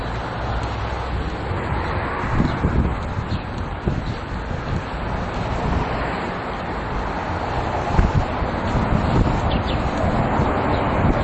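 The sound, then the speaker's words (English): Wind buffets an outdoor microphone, a steady low roaring rumble with gusty surges that swell and ease throughout, loud and without any talk. “I'm afraid this wind might be a little bit too much. So we're gonna have to get a windscreen.”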